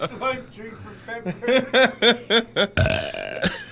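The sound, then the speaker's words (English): A person belches loudly into a microphone, a rough, raspy burst surrounded by voices and chuckling. “Why don't you burp into the microphone again, you pig?”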